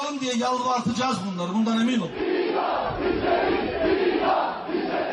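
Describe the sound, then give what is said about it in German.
Demonstrators in Turkey chant for the death penalty during a public appearance by President Erdogan, a loud mass of voices shouting in unison with a steady, rhythmic cadence. “İdam isteriz. Wir wollen die Todesstrafe. Laut und vernehmlich fordern das Demonstranten dieser Tage, wann immer Präsident Erdogan öffentlich auftritt.”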